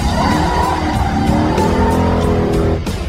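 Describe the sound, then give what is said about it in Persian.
Three cars speed in a chase, their engines roaring loudly and continuously with squealing tires throughout. “هر سه ماشین با سرعت در حال حرکت هم.”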